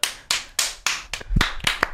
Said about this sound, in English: I thought we were just clapping the segment.